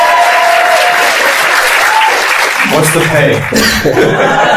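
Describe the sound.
An audience applauding with loud, continuous clapping, mixed with some chuckling and laughter and a few voices.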